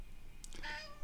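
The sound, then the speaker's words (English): A pet cat gives a single short, faint meow, well under a second long, over a low background hiss. “Hello, you're such a good kitty.”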